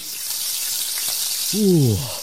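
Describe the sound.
Carrot pancakes frying give a steady hiss of sizzling oil from start to finish, and a brief vocal sound rises over it near the end.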